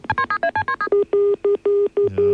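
A rapid run of telephone keypad dialing tones, each a short two-note beep, gives way to an engaged tone: a steady low tone pulsing on and off in an even cadence several times, with a faint low hum under the final pulses.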